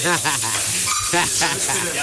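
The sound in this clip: Tortitas frying in oil sizzle with a steady, loud crackling hiss that fills the whole clip beneath a voice.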